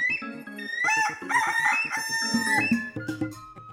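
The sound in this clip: A rooster crowing in a drawn-out cock-a-doodle-doo with clucking tones, heard within a children's story. Steady background music plays beneath the call throughout.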